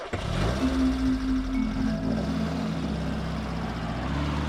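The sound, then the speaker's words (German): Car driving on a trip to Tharandt near Dresden, with a steady low engine rumble and a mid-pitched drone that shifts slightly. The sound is loud and continuous, with no talk. “Ich fahre nach Tharandt bei Dresden”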